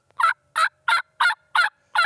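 Turkey yelps made on a hunting call: six short, bright, raspy notes in an even, steady rhythm, each separated by a brief clear gap, with no voices.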